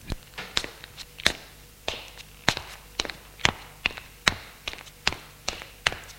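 Footsteps of people climbing the stairs of an apartment building, many even, regular treads that thud and tap in a steady rhythm, moderately loud throughout.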